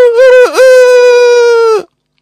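A large Indian-breed rooster crowing from a coop right below a window in Beşiktaş. It gives one long, loud, harsh, sustained call with a brief dip early on, then cuts off abruptly.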